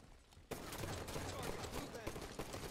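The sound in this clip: Rapid automatic gunfire from a gun in Halo 2. It bursts in abruptly after a brief quiet lead-in, then continues as loud, dense, rattling volleys with a few sharper shots standing out.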